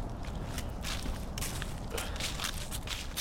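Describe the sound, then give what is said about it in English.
Footsteps of people walking outdoors, a faint, steady series of soft steps over constant background noise. “Okay, we're going to let those guys continue their walk.”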